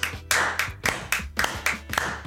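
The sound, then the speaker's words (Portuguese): A person claps hands, giving a steady run of sharp, fairly loud claps at an even pace with no other sound. “obrigado pelas palmas aí”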